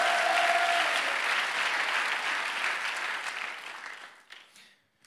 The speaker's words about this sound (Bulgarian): ръкопляскането ви днес отнема само телевизионното време.